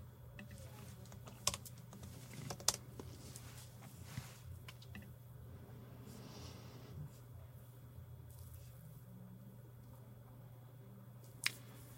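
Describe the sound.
Faint typing on a computer keyboard while entering a search, with scattered light clicks and a few sharper key taps spread across a quiet background, no voices.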